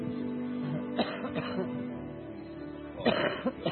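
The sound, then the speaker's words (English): A woman coughs during a healing prayer. There are a few short, rough bursts, then a long pause and a couple more, all over a low, steady background noise. “I command this cough to leave you.”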